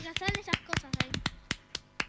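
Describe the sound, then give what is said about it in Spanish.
Scattered clapping from a few people in a radio studio, a sparse, uneven run of sharp individual claps, with people talking over it. “Aplausos, por favor.”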